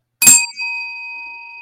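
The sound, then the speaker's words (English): A bell rung once: a single bright ding with a sharp attack, then a clear, steady ringing tone that slowly fades in otherwise quiet surroundings. “Let's give it a good bell, though, real quick. One, two, three.”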